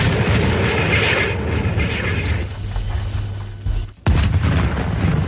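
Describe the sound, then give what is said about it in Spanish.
An artillery gun fires during a wartime battle scene. A dense, loud rumbling roar drops into a brief hush, then one heavy blast bursts out and the roar continues. “Listos para disparar. Variación de proyección a 24 metros. 24 metros, listo. Inclinación 26 grados, carguen. 26 grados, listo, señor. ¡Fuego!”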